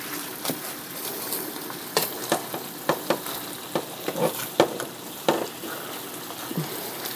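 Food sizzles steadily in a pan while it is stirred, and many sharp scraping clicks from the stirring cut irregularly through the frying hiss.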